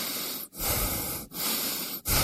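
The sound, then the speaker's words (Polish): Loud breathing in and out on command: a few long, hissing breaths through the mouth, each cut off by a brief silent pause, with no talk. “Proszę oddychać. Nie oddychać. Oddychać.”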